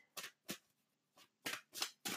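Deck of playing cards being shuffled: six short, crisp papery bursts in an uneven rhythm, with brief quiet gaps between them.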